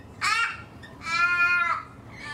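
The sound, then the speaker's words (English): Harsh, nasal cawing from an ordinary crow in Australia: two drawn-out calls separated by a pause, with a third starting just as the sound cuts off, over a faint steady background. “Is this the monkey bird? No, it's just a regular crow.”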